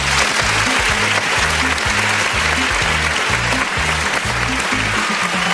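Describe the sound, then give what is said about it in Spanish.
A studio audience in a radio hall gives sustained applause for the presenters, a dense, steady clapping patter at even loudness throughout, with a low rhythmic pulse underneath. “Y desde aquí quiero dar las gracias a toda la sala a mis locutores que están de vacaciones, un aplauso muy grande para ellos.”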